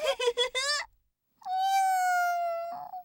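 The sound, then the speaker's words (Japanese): Kitten meowing: a few short, quick bursts, then after a pause one long, drawn-out, fairly steady high cry that ends abruptly, loud and clear. “あれ、猫だ。 どうしたのかしら。何か困っているみたい。”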